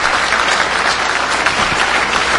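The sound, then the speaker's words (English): An audience applauds with steady, dense clapping at a show's ceremony. The applause stays loud and even throughout, with no voices standing out. “So give yourself a round of applause.”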